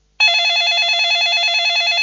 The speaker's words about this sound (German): Da klingelt das Telefon.